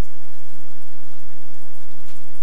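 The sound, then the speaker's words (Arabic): Steady rain falls in a dense, loud, unbroken hiss that stays even throughout, with no voices or other distinct sounds. “اسمع دنين المطر”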